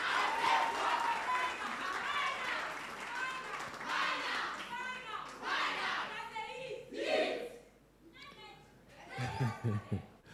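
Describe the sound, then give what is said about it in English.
An audience in an auditorium at a debate claps amid shouts and chatter. The level is uneven and loud at first, drops near the end, then surges in a final burst of clapping. “Keep applauding, keep clapping.”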